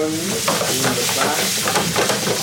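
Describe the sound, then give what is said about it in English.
A spatula scrapes burning spaghetti in sauce off the bottom of a pan, steady sizzling frying overlaid with repeated rasping scrape strokes throughout. “Right, now it's starting to burn on the bottom. So now he's really using the spatula to scrape the bottom of the pan. The spaghetti is starting to stick to the pan, which is good, right?”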